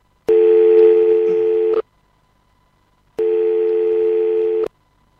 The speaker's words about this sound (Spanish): Eh, tengo que hacer una llamada.